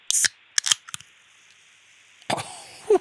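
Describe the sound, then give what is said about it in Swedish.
A drink can is opened, giving several sharp, brief metallic clicks and cracks separated by quiet gaps, with a louder crackling burst near the end. “Jag öppnar min burk här, och så får ni skåla på den godaste bohuslänskan ni kan.”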